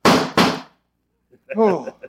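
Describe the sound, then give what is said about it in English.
Two loud, sharp revolver gunshots from a radio drama fire in quick succession, then after a silent pause a voice begins speaking. “Oh, it can't be. I put 6 bullets into you.”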